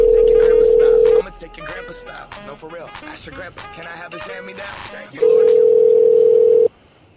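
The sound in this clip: A telephone dial tone sounds before a prank call. One long, steady, unwavering tone is followed by a stretch of people talking, then the same tone returns and cuts off abruptly.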